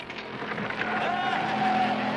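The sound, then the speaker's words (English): A cartoon car races down a steep hill and curves around a big boulder on a narrow track. Its engine whine swells and grows louder as it goes. “They drive down a steep hill and curve around a big boulder on a narrow track.”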